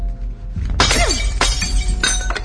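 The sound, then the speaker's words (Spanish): Glass shatters as the metal nozzle of a fire hose smashes the glass case holding a fire axe on a flooding ship. A loud crash is followed by bright crunching and tinkling bursts of breaking glass. “Agarra la boca metálica de la manguera y golpea el cristal que guarda el hacha.”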